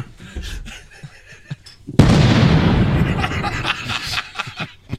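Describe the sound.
A sound-effect explosion for a meteor striking Russia: after a quieter stretch, a sudden loud blast breaks in and settles into a broad, rumbling roar that slowly fades.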